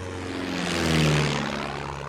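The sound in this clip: A propeller airplane flies by with a steady, buzzing engine drone. The sound swells to a peak midway and then eases off slightly, with no voices.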